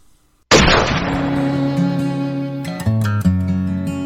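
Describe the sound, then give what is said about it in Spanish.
A firing squad's volley of gunshots cracks out as one sudden, loud blast after a moment of near silence, then sustained, swelling music chords follow. “¡Pelotón! ¡Apunten! ¡Fuego!”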